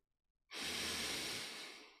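A slow, breathy exhalation during a breath-counting exercise. A single long breath rises from silence and holds steady, then eases off gently toward the end.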